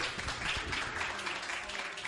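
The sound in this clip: Faint applause from a live audience, a soft, dense patter of clapping held at an even low level throughout with no distinct voices.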